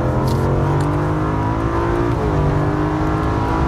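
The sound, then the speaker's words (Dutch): Engine of a BMW M5 Competition runs loud and continuous, a dense low harmonic drone that stays nearly steady in pitch throughout, with a slight shift partway through and no voices. “En zo gaat het nog even door. De BMW M5 Competition.”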